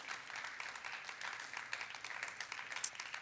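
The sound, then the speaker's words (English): Church audience clapping for first-time guests during a welcome, soft and fairly low in level, with a fluttering, uneven texture of many hands throughout. “Can we give it up like crazy for all of our first-time guests? Come on. Let's welcome our family.”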